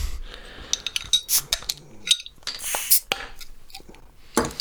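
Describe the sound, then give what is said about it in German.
Clinks of glass and short bursts of hissing as a bottle of Huber Bräu Sankt Johanner Original beer is opened and poured, a few sharp bright clinks scattered between fizzing noise. “was haltet ihr davon, wenn wir die Flasche öffnen und mit der Verkostung beginnen?”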